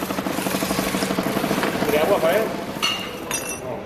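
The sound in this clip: A motorised sharpening wheel spins at speed as knives are worked to and fro across it, giving a steady pulsing mechanical whir with a few sharp metallic clinks toward the end.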